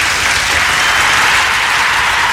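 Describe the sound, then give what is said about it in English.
A loud, sustained round of applause honours night workers. Dense clapping forms an even, unbroken roar across the whole clip. “Got to give them a round of applause, man, I tell you.”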